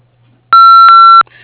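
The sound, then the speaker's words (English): An answering machine beep follows a recorded greeting: one loud, steady high-pitched tone lasting under a second, heard alone over a faint low hum. “Please leave a detailed message after the tone, and someone will get back to you as soon as we can.”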